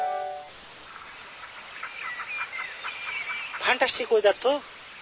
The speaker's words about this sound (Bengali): তোদেরকে পাখি ডাকছে